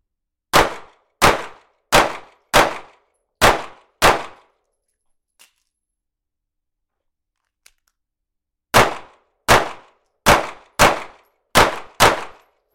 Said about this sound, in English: That was good shooting, man.